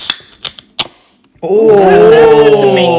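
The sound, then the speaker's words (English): A drink can ring pull is worked open in a few sharp, dry clicks with short gaps between them, and a voice starts up right after. “Oh, that was a nice like tick dunk. Yeah, that would be good on a little like on a track, wouldn't it? Like on a little sound bit. Mark will turn it into something. Mark will snip. Yeah. Well, yeah, it's not like I haven't turned a ring pull sound into a piece of music before.”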